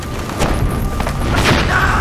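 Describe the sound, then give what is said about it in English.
A black powder bomb exploding: a loud, dense, rumbling blast of noise that carries on for a couple of seconds with rough surges, no clear separate bangs. “throws down a bomblet of black powder. Get it!”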